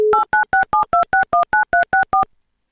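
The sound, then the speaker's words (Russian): A telephone call is placed to a quiz contestant. A short steady dial tone is followed by a rapid, evenly spaced run of about a dozen loud dual-tone keypad beeps, then silence. “Прямо сейчас мы будем пытаться связаться с Константином.”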